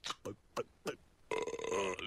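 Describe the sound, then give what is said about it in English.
A long, rumbling belch from a beer drinker follows a few short spoken syllables. The voiced, strained burp is drawn out for nearly a second. “Barry McKenzie once said, I drink, therefore I burp.”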